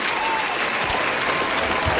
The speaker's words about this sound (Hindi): आज तुम तालियां होनी चाहिए भाई दानिश के लिए, अलग से तालियां यार।